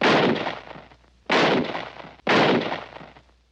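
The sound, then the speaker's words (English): Three gunshots in a radio drama as a fleeing deserter is shot: loud, sharp blasts about a second apart, each trailing off into a long rumbling decay, with no voices. “Shot him as he was trying to run away.”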